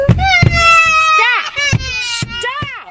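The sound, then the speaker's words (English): A child wails loudly, high-pitched cries wavering up and down in long sobbing swoops with short breaks between them. “It's a horrible clip, by the way. Sorry. As I was posting, that's a horrible clip because that kid starts wailing. I cut out a lot of the kid wailing, by the way, just for y'all.”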